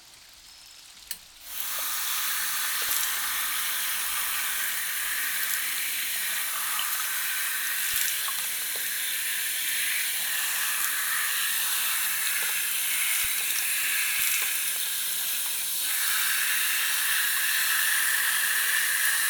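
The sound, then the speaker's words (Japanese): Shower water runs steadily with a loud, even hiss while someone's hair is washed, starting after a short knock near the beginning and continuing unbroken to the end. “ちゃんとシャワーもあるんですよ。”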